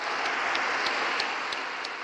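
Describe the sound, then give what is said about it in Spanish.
A crowd of pilgrims in Rome applauds to greet fathers on the feast of Saint Joseph. Many hands make a dense, steady patter that stays fairly faint and even throughout. “A todos los papás, saludémoslos con un gran aplauso.”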